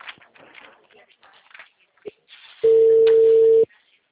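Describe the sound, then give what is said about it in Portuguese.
A single ringback tone from an outgoing telephone call: one steady, flat, mid-pitched beep lasting about a second. It is loud and clear, and faint murmuring noise comes before it. “Liguei pro Marcos 5 vezes.”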